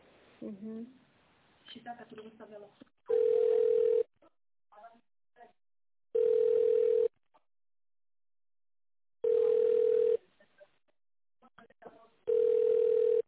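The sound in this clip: Telephone tones sound while a call is transferred to a colleague: four steady mid-pitched tone bursts, each about a second long, separated by near-silence and faint clicks, with brief voices talking at the start.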